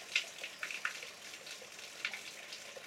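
Faint running water from a drinking tap at a shrine, a soft, steady trickle with scattered light splashes and drips. No voices are heard.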